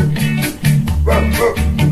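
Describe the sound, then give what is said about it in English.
A dog barks a few times over steady, sustained musical tones, the barks short and sharp against the continuous background. “I do hope the dog is okay.”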